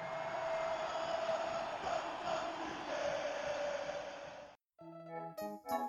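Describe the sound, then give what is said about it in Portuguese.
A special jingle for Internacional (Colorado) fans opens with a loud roaring stadium crowd chanting and cheering for several seconds. After a sudden brief cut, bright musical tones follow. “Com essa vinheta especial aí em homenagem a pedido do seu Sérgio, Serginho, pai dele, do Nando Rocha, que tá lá em Portugal.”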